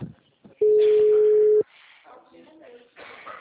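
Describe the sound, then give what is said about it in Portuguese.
A telephone call is placed: a single steady phone tone holds for about a second, then cuts off and a voice begins speaking over the line. “Gente, silêncio que eu vou fazer a ligação.”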